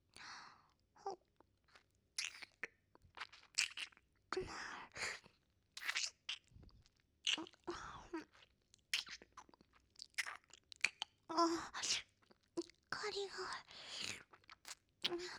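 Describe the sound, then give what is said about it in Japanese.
Crunchy chewing and biting of food by someone eating while blindfolded: many irregular close crunches and wet mouth sounds, quiet overall, mixed with soft whispering. “それではいただきます。”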